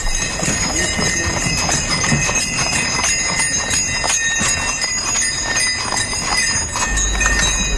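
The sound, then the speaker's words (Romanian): Hooves clip-clopping in a steady, even rhythm as a horse pulls a sleigh, the beats continuing throughout over a constant high-pitched ringing. “Ați avut o idee grozavă. Să faceți o plimbare cu Sania.”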